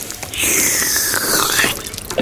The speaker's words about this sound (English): It begins pouring over the edge. Please say when. It drips off the table and onto Thomas's face on the floor.